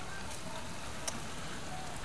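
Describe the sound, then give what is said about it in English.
Heavy rain pours down in a sudden downpour, spilling from the gutters. The steady, dense hiss stays even throughout, with one brief sharp tick near the middle. “The rain is coming down. I can see it's just pouring out of the gutters.”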